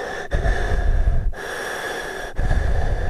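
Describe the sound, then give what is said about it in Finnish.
Loud, rasping breaths drawn through an inhaler, each breath lasting about a second with brief gaps between them, in a steady hissing rhythm with no talk. “tässä nyt tekeillä olevassa kuunnelmassa mä pyysin tekemään inhalaattorilla hengitysääniä”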